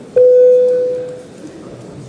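An electronic bell signalling a parliamentary vote sounds a single sustained, steady tone that fades gradually over about a second, over a low background hum.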